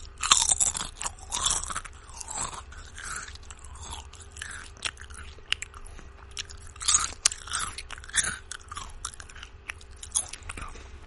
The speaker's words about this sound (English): Also want to try to snack on some stuff too. Got some chips here. Again, I've never eaten on the air, so I don't know how this is going to sound.